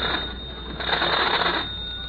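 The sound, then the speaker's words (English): A telephone rings once in a single sustained burst of buzzy electric bell tone that swells in the middle and then eases off. It sounds thin and band-limited, with no voices. “I'd better phone.”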